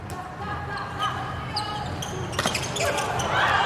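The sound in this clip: A volleyball bounced on the court before a serve during a volleyball match: a few dull thuds under a commentator's talk and steady background noise.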